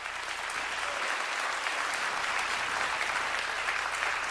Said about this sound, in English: Can we give our Healing Encounters team a round of applause?